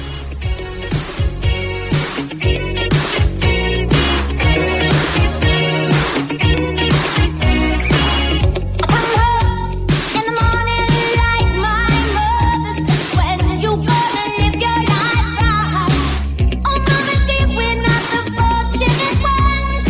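An energetic pop song plays loudly and without a break, with a steady driving beat and bright layered instruments over a strong bass line.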